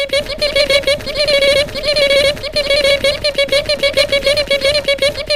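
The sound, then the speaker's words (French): A voice imitating a brood of parakeets chirping: a loud, continuous stream of rapid, pulsing, high-pitched chirps that repeat in quick bursts without pause. “C'est pas mignon, toutes ces petites perruches.”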